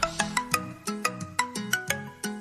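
Telephone ringing: a rapid, regularly repeating pattern of bright tonal notes, steady and moderately loud throughout, with no voices.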